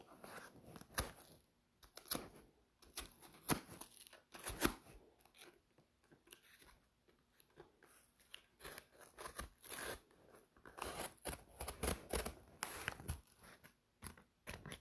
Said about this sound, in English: I think I will need a thing. So I'm using a box cutter here. Cut away from you.